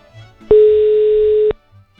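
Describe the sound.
A telephone ringing tone on a call: one steady, flat beep lasting about a second, loud and clean, with faint low rumble before and after it.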